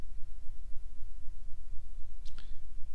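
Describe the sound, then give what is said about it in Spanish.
A computer mouse click: a quick, light double tick near the end, standing out over a steady low rumble. “Cliqueo.”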